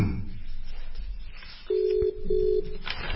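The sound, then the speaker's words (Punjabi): A telephone call being placed: two steady electronic keypad beeps in a row over low background noise, the second slightly shorter than the first. “ਅਸੀਂ ਰਜਿੰਦਰ ਸਿੰਘ ਜੀ ਹੁਣਾਂ ਨੂੰ phone ਕਰ ਦਿੱਤਾ”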